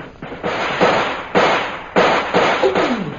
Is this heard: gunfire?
yes

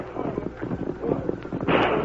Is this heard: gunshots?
yes

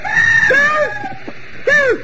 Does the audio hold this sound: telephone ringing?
no

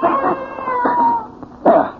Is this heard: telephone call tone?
no

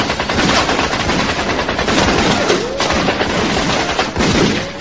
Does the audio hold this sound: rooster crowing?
no

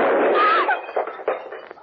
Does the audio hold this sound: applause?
no

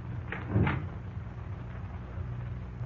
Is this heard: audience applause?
no

